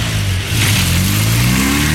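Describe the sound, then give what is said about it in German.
Car engine revving while accelerating, a loud continuous growl whose pitch climbs steadily over two seconds, with no talk over it. “Jetzt einsteigen und Gas geben.”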